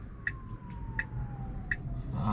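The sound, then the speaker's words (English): Emergency sirens sound on a crowded road: a faint, slowly falling wail under a heavy rumble, with three short high chirps evenly spaced through it and no talk. “We got some sirens. There's a lot going on here.”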